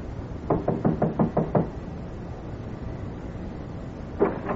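Knocking on a warped, dark-stained wooden door in a hallway: a quick burst of several sharp raps in a row, then a pause and a single knock near the end.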